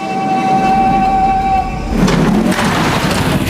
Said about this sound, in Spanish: El próximo tren está listo para partir.